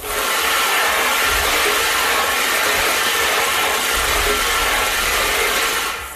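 Lottery balls clatter and tumble inside a spinning draw machine, a dense, continuous loud rattle that holds steady for about six seconds with no talk.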